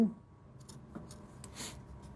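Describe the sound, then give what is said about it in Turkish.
Scissors cut into the edges of fabric bias binding up to the seam at a cushion corner during sewing. A few quiet, crisp snips stand out against a soft background. “Elinize makası alın, biyenin kenarlarını dikişe kadar kesin.”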